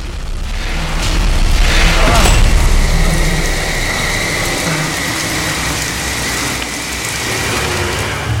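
Steady rain falls on a street as a dense, even hiss. It swells slightly early on and then holds constant, with a low rumble underneath.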